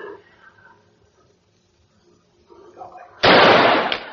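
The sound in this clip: A rifle shot at a target during a shooting match: a single loud, sharp blast that bursts in suddenly after faint voices and rings on for about a second.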